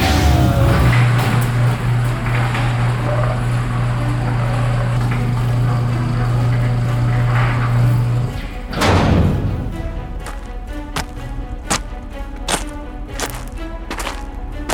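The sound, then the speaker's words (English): A heavy gate is opened. A low, steady mechanical hum runs for about eight seconds, then breaks into a heavy thud and whoosh, followed by a long series of sharp, evenly spaced clicks. “We're opening the gate.”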